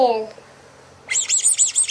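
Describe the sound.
Duck-like squeaking: a brisk run of about six bright, high chirps in a steady rhythm. It follows a short voice at the start and a brief quiet pause.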